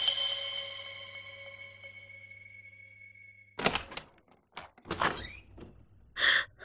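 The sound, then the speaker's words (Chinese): A door opening in a story: a faint, steady tonal note gives way to a few sharp clicks and clunks of the door, all quiet and with no voices. “门一打开”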